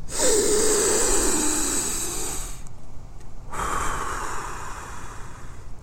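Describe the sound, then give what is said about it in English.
A deep breath drawn in and let out: two long, breathy rushes of air separated by a short pause, fairly loud and heard alone with no talking. “Three deep breaths. Here we go. Number one, go.”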